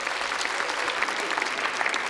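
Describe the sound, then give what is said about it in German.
Audience applause at an orchestral concert, greeting the stage crew after they carry off a large timpani; a dense, steady patter of many hands clapping continuously throughout, without pauses. “Einen Applaus für die Orchesterwarte.”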